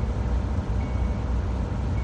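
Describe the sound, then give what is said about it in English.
Heavy, continuous road rumble from a 35,000-pound Starsky Robotics driverless truck on the Florida Turnpike. The low roar stays dense and steady throughout, with no clear breaks or separate events. “that's 35,000 pounds of steel thundering down a busy highway with nobody behind the wheel.”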